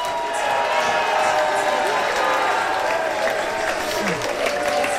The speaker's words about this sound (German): Der Jubel, man kann ihn nicht mehr bremsen.